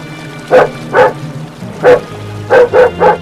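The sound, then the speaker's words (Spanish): Six loud, monotonous dog barks at a steady pitch in an uneven rhythm: two, a pause, one, then three close together, over a low constant hum. “El perro continuó sus ladridos, monótonos, hasta perderse en un punto equidistante e indeterminado.”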